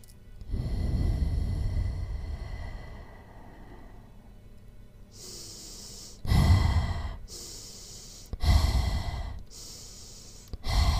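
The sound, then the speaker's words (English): Deep breathing: a long, loud breath in through the nose and out through the mouth, then a run of shorter, forceful breaths in a steady rhythm, with no talking. “I want you to inhale through your nose and exhale through your mouth. Take a deep breath in and exhale.”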